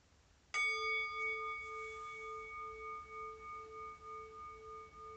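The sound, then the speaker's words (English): A single struck bell rings to open a timed 15-minute meditation. It sounds one clear strike that then rings on, bright and sustained, slowly pulsing as it fades over several seconds. “let me get my little timer going here. We'll do it for the next 15 minutes. We'll start in with the bell.”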